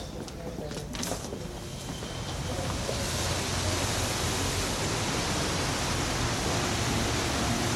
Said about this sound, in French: Vous avez raison de parler de la Seine. On va écouter l'eau.